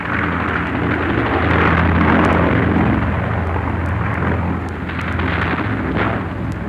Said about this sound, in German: Sowjetische Bomber.